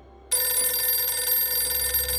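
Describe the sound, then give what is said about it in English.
A telephone starts ringing at night, a bright, steady electronic ring that cuts in abruptly and then holds at an even, loud level with layered high tones. No voices are heard. “The phone ringing was what finally caused him to sit up.”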